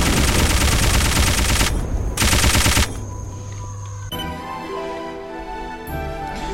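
Machine gun fire in a video game boss fight: a long, loud, dense rapid-fire burst, a short pause, then a second shorter burst, followed by quieter tonal game sounds.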